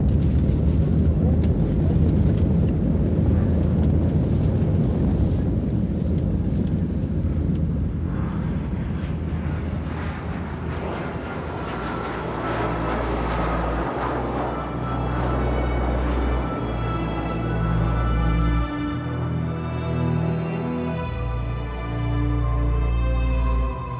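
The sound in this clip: Inside a passenger airplane cabin during takeoff, a loud, continuous engine roar and rumble lasts over twenty seconds, changing in tone partway through as the thrust builds.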